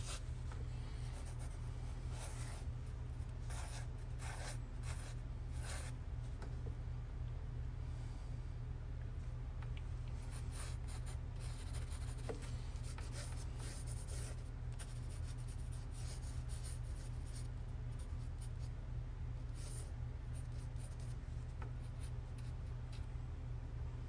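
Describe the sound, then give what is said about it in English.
Drawing on paper produces continuous scratchy strokes of a pen or pencil, faint and steady for the whole stretch, with a low steady hum underneath and no talk. “gotta draw some beaten up people right now and have to concentrate.”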